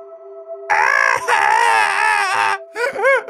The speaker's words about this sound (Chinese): 长着乌鸦脑袋的怪物小男孩委屈地哭泣道：